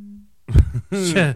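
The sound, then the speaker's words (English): A phone gives off a brief, low, steady electronic tone as a notification, and a person starts speaking right after it. “What the hell was that noise? That was my phone.”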